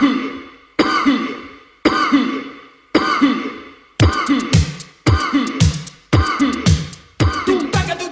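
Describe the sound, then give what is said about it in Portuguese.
A person coughs eight times in a steady rhythm, about once a second. Each cough is a harsh burst that fades out, and the later ones sound sharper and raspier. “Esta tosse.”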